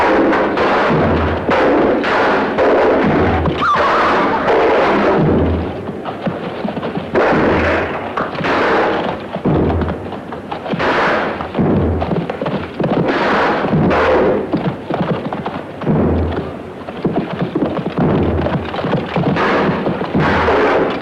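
Weapons strike shields again and again in mounted combat, a loud, dense din of many heavy crashing blows and low thuds in an uneven rhythm, with no talk.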